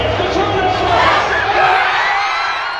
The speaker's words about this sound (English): Students and fans watched the game inside Magnus Arena on the DU campus, and they cheered as the Pioneers scored their first goal in the second period.